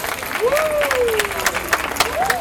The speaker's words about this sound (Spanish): Así que un aplauso por ustedes y felicitaciones.